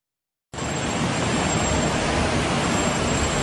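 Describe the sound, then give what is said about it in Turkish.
Rushing floodwater pours through the streets of Ayazağa, Istanbul, sweeping cars along in a flash flood. A loud, steady roar starts abruptly after a brief silence and holds constant. “Selin ilk anları. Burası İstanbul Ayaza. Otomobiller sokaklarda sürüklendi. Sel suyu önüne kattığı araçları böyle sürükledi.”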